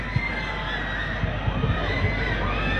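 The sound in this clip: Children shouting and cheering in an audience during a speech, a steady crowd din with scattered louder shouts and voices mixed through it.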